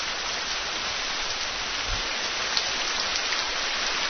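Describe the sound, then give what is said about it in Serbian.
Recorded rainfall played as a sound effect: a steady, dense hiss of falling rain, continuous and even in loudness, with no voices. “Evo vam malo kiše.”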